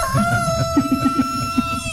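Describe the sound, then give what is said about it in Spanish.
A rooster crows in one drawn-out, steady call that sinks slightly in pitch, with several short, low clucking pulses beneath it. “¿Ya te canto el gallo, mira? Sí, señor. ¡Canta, gallo!”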